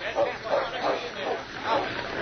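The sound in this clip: A dog whimpers and whines in a few short, high-pitched bursts, uneven and fairly steady in loudness.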